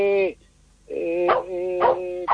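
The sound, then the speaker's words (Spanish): A dog barks at someone arriving at the house, a few loud, tonal barks mixed with whining yelps in a quick series. “Pero aquí le está ladrando, porque algo está pidiendo o algo está avisando.”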